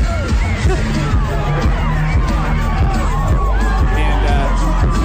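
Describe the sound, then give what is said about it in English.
A concert crowd roars and shouts in a mosh pit in front of the stage, a dense, loud mass of voices and whoops over a constant deep, thudding bass from the music. “So Machine Gun Kelly is in a mosh pit in front of the stage.”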